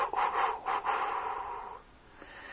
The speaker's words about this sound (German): Okay, dann einatmen, ausatmen.